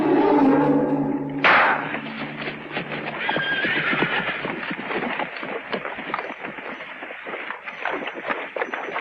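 Horses walk slowly through water; a horse whinnies loudly early on, followed by a steady, dense wash of movement and hoof sounds that continues to the end.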